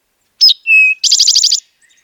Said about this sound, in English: Another sound that stands out so clearly on Nantucket is the song of the eastern towhee.